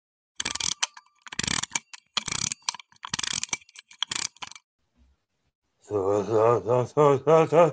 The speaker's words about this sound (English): I quickly wound up the machine man's actions, speech, and thoughts.